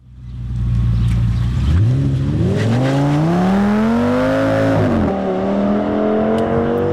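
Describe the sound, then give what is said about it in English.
A car engine revs hard, its droning harmonics climbing steadily in pitch over several seconds, dipping briefly near the end, then holding a loud, steady roar with no voices. “That is the sound of a car, isn't it”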